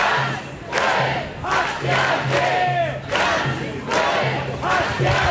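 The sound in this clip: A street protest crowd in Cologne, around 9,000 people against the AfD, chants in loud rhythmic phrases. The voices rise and fall in repeated surges, with brief dips between them.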